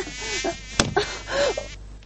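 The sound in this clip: A fly buzzes in a studio, a thin continuous drone with wavering pitch that runs through the whole moment, broken by a few sharp knocks.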